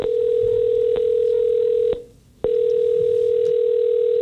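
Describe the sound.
A telephone call ringing out on the line: a steady mid-pitched electronic tone holds for about two seconds, cuts off briefly, then resumes, with no talking.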